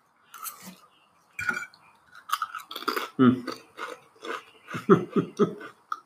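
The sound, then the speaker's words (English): Chewing and the clink of dishes and cutlery as a person eats dinner. Irregular clicks and mouth sounds come in scattered bursts at moderate loudness, with faint vocal noises between them. “sorry, I was eating.”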